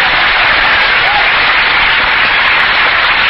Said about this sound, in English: So let's hear a great big warm welcome for our young friend, Justin Tubbs. Here he is.